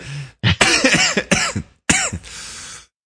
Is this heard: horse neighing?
no